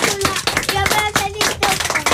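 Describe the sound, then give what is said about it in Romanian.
Hand claps ring out from an audience for a performer, sharp, regularly spaced claps repeating in a quick rhythm, with a tonal voice sounding between them. “Mai facem treaba asta, dar vreau să-l aplaudăm pe Tozap.”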